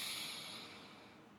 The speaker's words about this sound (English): I'll breathe in